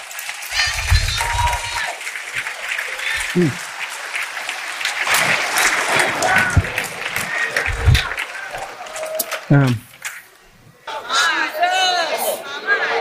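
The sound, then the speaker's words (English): A church audience cheers, applauds and whoops in a loud, continuous wash of crowd noise. Shouts rise out of it now and then, and the clapping keeps going throughout. “Is there anybody that will make some noise and say, Jesus, I will follow you even in the fire?”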